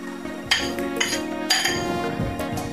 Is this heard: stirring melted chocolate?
yes